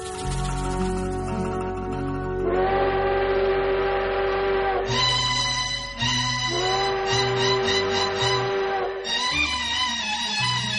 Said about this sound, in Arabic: سمعينها صوتها جديد، صفارة قطر العيد